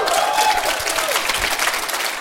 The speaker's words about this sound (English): I call that a cheap applause line. Actually, a costly applause line.